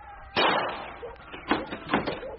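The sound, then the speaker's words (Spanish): A door being opened in a rough little house: an abrupt, loud bang-like burst, followed by a few shorter, fainter clattering bursts, with some voice-like sound mixed in. “Ahorita abro la puerta”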